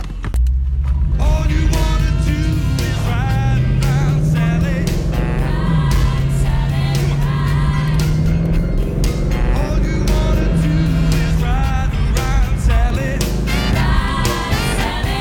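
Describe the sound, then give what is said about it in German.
Engine rumble and wind from a convertible driving with the top down on a cold, sunny day. A continuous low drone holds under brighter tonal sounds for the whole stretch. “Ja, ich liebe Cabrio fahren.”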